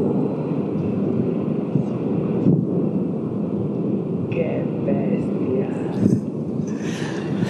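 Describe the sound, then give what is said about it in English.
A roiling, incandescent lava lake hundreds of feet down gives off a loud, steady low roar under buffeting wind, the rumble holding constant with a few brief gusty bursts. “And this lava lake being absolutely roiling and incandescent. Even at hundreds of feet down, it was too bright for us to look at. Soon you can hear the sound of the lake itself over the wind.”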